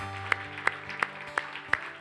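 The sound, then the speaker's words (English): At a Christmas Eve church service, an audience claps in a quiet, steady rhythm. Crisp, evenly spaced claps ride over a low sustained tone. “Let's give a round of applause for all those people that said yes to Jesus for the very first time.”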